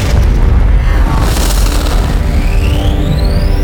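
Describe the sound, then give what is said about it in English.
A spaceship fires all its weapons in a sci-fi explosion effect: a loud, sustained, deep booming rumble, with a high whine rising in pitch toward the end. “Fire all weapons.”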